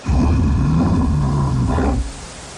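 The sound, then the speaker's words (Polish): A deep, loud roar from bears in the Carpathian forest: one sustained growling call lasting about two seconds before it cuts off abruptly, leaving a low residual rumble. “A to odgłos niedźwiedzi.”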